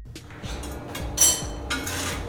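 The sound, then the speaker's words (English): Utensils and pans clinking while a pizza is being made with Baccio Italian pizza cheese, a few faint, scattered metallic clinks and knocks over a low background rumble. “Hear that? That's the sound of a pizza being made with delicious Baccio cheese.”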